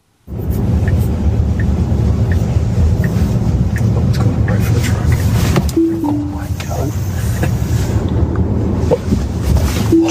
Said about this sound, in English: Let's roll it. This is his drive in a Tesla. Take a look.